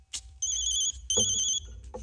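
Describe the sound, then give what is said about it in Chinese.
An electronic telephone ringtone sounds in two steady, high-pitched ring bursts of about half a second each, separated by a short gap, with no talking. “电话。”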